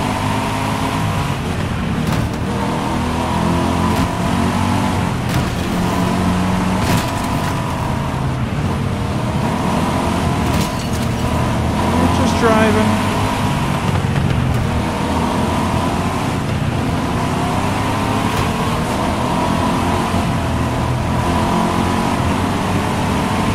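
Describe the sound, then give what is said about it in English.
A car drives with a steady engine drone and road rumble that run loud and unbroken throughout, with slight swells in engine pitch and no voices. “Driving our car.”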